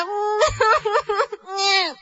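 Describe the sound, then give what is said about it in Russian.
A voice cries and wails in short, broken sobbing bursts. It ends in a long, drawn-out moan that falls in pitch. “Не плачь”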